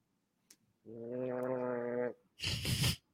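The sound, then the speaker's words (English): Gargling in the throat: a sustained, buzzing voiced gurgle of about a second is followed by a shorter, rougher, bubbling burst. Both are fairly loud and heard alone. “And maybe we'll do like a little gargling with the fellas.”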